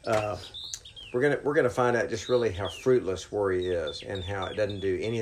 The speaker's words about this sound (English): we hear the birds in the background here as we're sitting on a porch in this wonderful, bountiful rec center